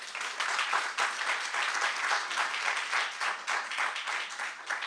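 An audience at a literary reading event applauds to welcome readers from a magazine, a sustained, even patter of many hands clapping with no talk over it.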